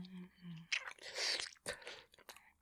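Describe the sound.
Chewing food close up: wet, crunchy mouth noises in several irregular bursts, after a brief low hum at the start.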